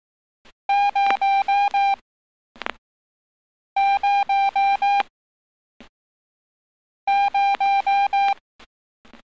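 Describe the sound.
Morse code signal for the digit zero, sent as five long steady dashes in a clear mid-high tone, repeated in three identical groups, with a few short separate blips between the groups.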